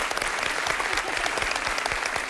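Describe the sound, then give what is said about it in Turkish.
A studio audience at a televised quiz show applauds the contestants: dense, steady clapping at an even level that continues for the whole stretch without breaks. “Alkışlar.”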